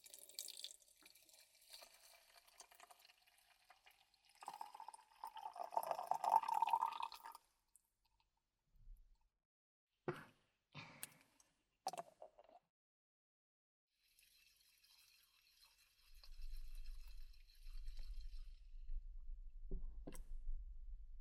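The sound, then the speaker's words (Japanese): Hot water is poured slowly and carefully in a soft, faint trickle that builds for a few seconds, then gives way to a few brief, quiet sounds and a low hum. “こぼさないようにお湯を注いで、”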